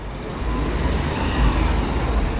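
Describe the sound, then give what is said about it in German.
Road traffic at a busy central junction on Cologne's ring boulevard: a steady, dense, low rumble of passing cars and heavier vehicles, continuous throughout with no single pass-by standing out and no voices. “Ich bin inzwischen am Rudolfplatz auf den Kölner Ringen angekommen. Tagsüber ein zentraler Verkehrsknotenpunkt”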